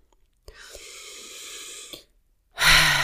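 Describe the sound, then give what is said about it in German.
Deep breathing during a guided meditation: one long, steady, airy breath lasting about a second and a half, a short silence, then a louder, rougher breath that begins near the end and is cut off. “Und dann schenkt ihr nochmal drei tiefe Atemzüge, so wie zum Beginn dieser geführten Meditation.”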